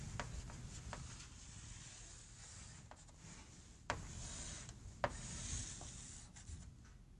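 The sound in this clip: Pen strokes of a graph being drawn by hand: dry, scratchy rubbing with a few sharper ticks where lines start or end, faint and steady with no talk.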